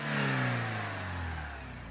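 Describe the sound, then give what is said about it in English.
A car engine accelerates as the driver hits the gas, a steady, loud, rough revving roar with strong low harmonics that holds for the whole stretch with no voices. “So, with anger, like a shot of Radkir in my veins, I hit the gas and headed to the only other place I knew to cool off.”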